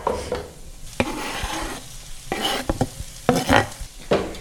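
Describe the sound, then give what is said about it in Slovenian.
Bacon and chopped onion sizzle in a pan, a steady frying hiss broken by frequent clatters and scrapes of stirring. “Najprej bom torej opražil slanino in ta že dobro diši. In zdaj bom pa dodal tudi nasekljano čebulo.”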